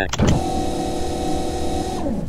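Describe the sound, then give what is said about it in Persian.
Landing gear extending in a flight simulator video game, a brief click followed by a steady mechanical motor whine that holds for about two seconds before cutting off abruptly. “چرخارم باز میکنیم با کنترل F.”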